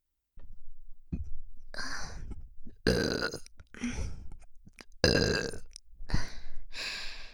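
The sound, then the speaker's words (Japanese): Close-up binaural burps from a woman: several long, rough, gravelly belches in a row, each loud and drawn out with short pauses between, heard alone without talk. “お姉さんのバイノーラルゲップです。この距離でゲップしたらどうなるかな。”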